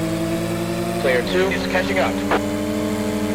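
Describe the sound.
A car engine drones steadily as it is driven through a school-run video game, a buzzing, harmonic hum that dips slightly in pitch about a third of the way in, with brief brighter bursts layered over it.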